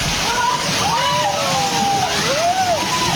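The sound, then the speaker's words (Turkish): Floodwater pours into a house in Vietnam with a loud, unbroken rushing and sloshing roar that holds throughout, while a voice talks over it. “Vietnam'da ise sel bir eve böyle daldı.”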